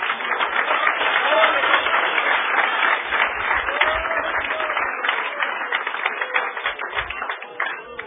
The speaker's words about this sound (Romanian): Give the Lord a hand of praise. Dați Dumnezeu aplauze.